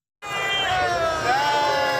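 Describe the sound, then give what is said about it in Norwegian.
Crowd cheering for the Uno-X cycling team at the Tour de France finish on the Champs-Élysées in Paris: a sudden, loud swell of many voices with sustained shouts that holds strong for about two seconds. “Det jubles for Uno X foran triumfbuen I Paris.”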